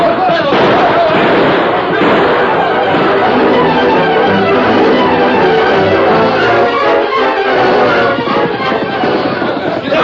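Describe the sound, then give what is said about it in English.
Gunshots ring out in a western radio drama shootout, many sharp bursts packed into a dense, loud, unbroken wall of noise, with voices shouting throughout. “They're shooting up ahead.”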